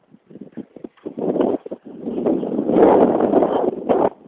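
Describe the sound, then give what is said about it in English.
A chilly northwest wind buffets the microphone in rough, rumbling gusts: several short bursts with brief lulls at first, then a steadier sustained roar that swells and drops away near the end. “Wind out of the northwest, actually. Floor outflow. It's quite a chilly wind.”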